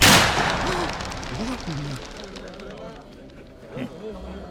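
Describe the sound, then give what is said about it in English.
A single gunshot rings out in a drama as a man shoots himself: a sharp, loud blast at the very start that fades into a lingering noisy decay, with faint voices underneath. “Let me show you how this goes. And I shot myself.”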